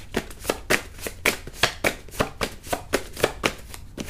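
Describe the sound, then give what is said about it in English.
Cards shuffled and drawn by hand from a deck, making a steady run of many crisp, sharp slaps and rustles at an even rhythm, heard alone without talk. “I have some more time. I want to take some more cards. I'm not doing a specific number. It's just like, I'm just going to take some.”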